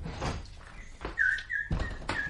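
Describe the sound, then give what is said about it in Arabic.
Bulbul bird singing a sad tune: thin, high whistled notes and brief chirps, spaced apart, over soft muffled thumps and background noise. “فلما فتحت الباب قابلها البلبل بأنغام حزينة كأنما يبثها شجونة أو ينقل إليها أخبارا أليمة.”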